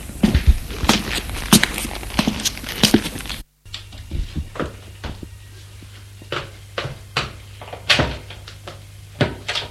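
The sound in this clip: Someone hurries up a staircase in a rapid series of sharp footfalls. The thuds are uneven in loudness, with a brief silent gap partway through.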